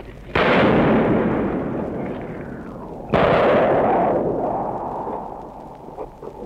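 Two heavy gunfire blasts during street fighting amid city ruins at a wartime liberation, caught in a live radio report; each loud crack gives way to a long, rumbling decay.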